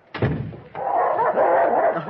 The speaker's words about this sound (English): Oh, fine dogs. Come here, fellows.